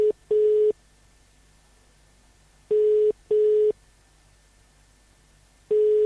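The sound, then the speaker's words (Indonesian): Telephone ringing tones sound as a call is dialled to a radio guest. Steady beeps come in pairs, separated by long quiet gaps, with no voices. “Jadi kita cuba untuk menghubungi Tan Sri James Masing, saudara.”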